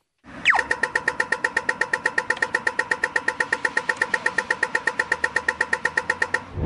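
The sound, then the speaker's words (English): A pedestrian crosswalk signal: a quick falling electronic sweep, then many rapid, evenly spaced bright ticks repeating steadily at a fast tempo until the end. “We'll leave you with the crosswalk sound effect just to put you in a bad mood.”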